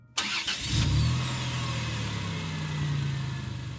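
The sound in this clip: A car engine starts with a sharp burst, then settles into a steady, low, rumbling run as the car begins to move off.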